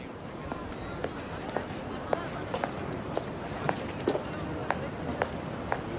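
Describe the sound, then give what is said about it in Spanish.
Slow footsteps cross the courtyard of the Spanish Congress in a 2011 historical thriller film, a steady series of soft, evenly spaced footfalls over a dense, constant background hum. “Tejero está solo en el patio. Lentamente camina hacia la verja de salida del Congreso.”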